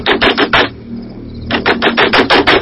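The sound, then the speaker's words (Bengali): Hard knocking on a closed door: two rapid bursts of loud, heavy thuds, about five blows, then a short pause, then about six more. “পায়ের আওয়াজ বারান্দার উপরে উঠে এলো, তারপর বন্ধ দরজায় সজোরে ধাক্কা।”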